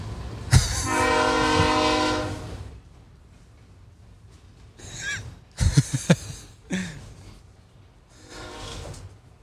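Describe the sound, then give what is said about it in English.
A passing train sounds its horn in a long, loud, droning blast over low rumbling. A few shorter horn blasts and sharp rail clatter follow as the train rolls on. “Fucking train. See? This is why I want to fucking turn this”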